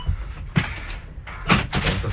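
A door moves open or shut with a couple of dull thuds and brief rattling bursts, fairly loud, with no talk.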